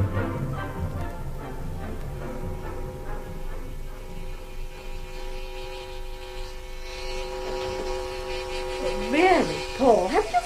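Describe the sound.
Steady electric buzz of a razor during shaving, a droning hum with a constant pitch that holds through the whole stretch at moderate loudness.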